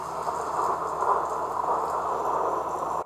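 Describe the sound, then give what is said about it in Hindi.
Steady rain from a strengthening storm, a constant soft hiss of falling water that holds at an even, fairly quiet level throughout. “तूफान तेज़ी से बढ़ता ही जा रहा था,”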